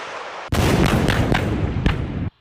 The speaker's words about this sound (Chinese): 根据回传信息，榴炮分队自主解算装定射击诸元，向目标发起火力打击。